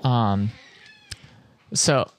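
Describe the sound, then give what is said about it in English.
A cat meowing, with two drawn-out, tonal meows separated by a short quiet gap. “I think the cat is now so embarrassed that he has to go outside.”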